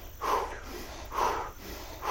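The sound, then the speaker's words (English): Short, quick breaths during a guided relaxation exercise, soft airy bursts that come in a few even pulses about a second apart, quiet and alone with no talking. “Now just a couple of times, breathe a little bit shorter and faster.”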